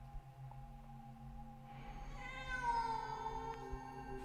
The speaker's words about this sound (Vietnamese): Bỗng có tiếng con mèo kêu phát ra ở phía bên trái.